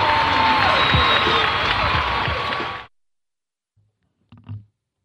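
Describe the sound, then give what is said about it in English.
An audience applauds and cheers to introduce a show at Red Rock Studios in Los Angeles, California. The clapping and cheering are loud and dense, then cut off abruptly about halfway through, leaving near silence. “From Red Rock Studios in Los Angeles, California, this is the Shiznit. Now, put your hands together for the Shiznit.”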